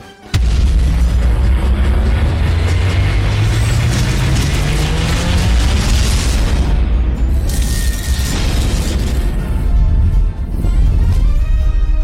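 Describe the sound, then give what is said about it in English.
Loud video game teaser trailer audio full of mechanical ratcheting, grinding gears and heavy booms, with a slowly rising tone underneath. A dense, continuous wall of sound runs throughout, with sharp impacts near the middle and end. “And there's a little teaser trailer here on the website. I'm going to hit this real quick.”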